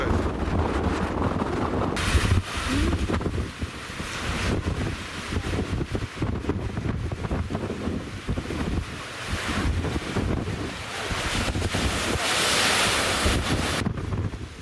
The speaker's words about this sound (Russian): Вы, друзья, не можете себе представить этот ветер, который меня буквально с ног сбивает.